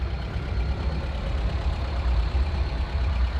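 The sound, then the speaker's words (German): Steady engine rumble as a transport van and two limousines pull away from in front of a bank branch, driving toward Comet House; a continuous low, even drone with no clear breaks. “Der Transportwagen und die beiden Limousinen vor der Bankfiliale setzen sich in Bewegung und fahren auf das Comet House zu.”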